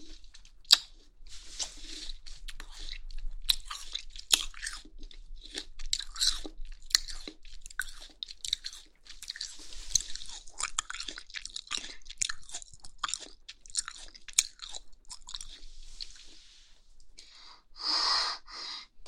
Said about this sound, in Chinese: 接下来水煮的，姐姐就一口气全部放在嘴里，要吃一大把，那样才满足，才过瘾。